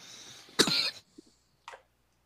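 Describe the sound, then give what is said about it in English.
Someone coughing after something went down the wrong way: one harsh, prolonged cough burst, then a couple of smaller, quieter coughs in quick succession before silence. “Excuse me. Please don't choke. We're not worth it.”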